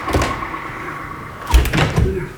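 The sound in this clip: Door being closed, a couple of dull thuds and knocks near the end over a faint steady hum.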